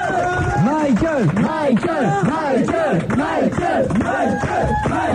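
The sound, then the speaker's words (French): Fans who travelled from across France and Europe give a singer a loud ovation, chanting in a repeated rising-and-falling vocal pattern over a steady bed of crowd cheering. “il y a toujours l'ovation, bien sûr, de ses fans qui sont venus nombreux de la France entière, de l'Europe européenne”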